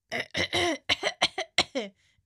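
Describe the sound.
Coughing in a rapid series of short, harsh bursts, one after another with tiny gaps, fairly loud and alone without talk.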